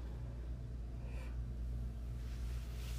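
A deep breath is drawn in during a guided breathing exercise, a soft, airy inhalation that is faint over a low, steady background hum and has no talk.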